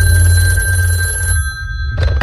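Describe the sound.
A telephone bell rings in a steady electronic trill over a low hum, stops briefly, then starts to ring again just before the end. No one speaks.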